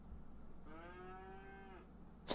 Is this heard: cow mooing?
yes

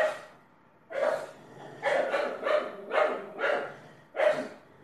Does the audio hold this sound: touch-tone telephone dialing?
no

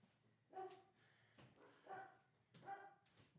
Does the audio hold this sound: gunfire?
no

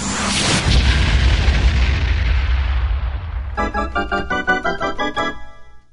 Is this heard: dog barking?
no

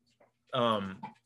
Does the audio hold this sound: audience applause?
no

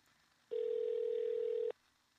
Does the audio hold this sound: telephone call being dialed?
yes

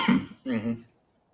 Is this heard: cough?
yes

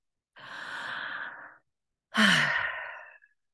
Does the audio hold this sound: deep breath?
yes

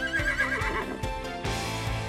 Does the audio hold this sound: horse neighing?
yes

